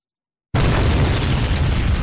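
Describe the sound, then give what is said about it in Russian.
Explosion blasting through a metal wall, set off by an electric detonator and detonating cord, bursting in suddenly from silence and continuing as a loud, heavy rumbling roar to the end. “Оглушительный взрыв сотряс стену и выбросил язык красного пламени.”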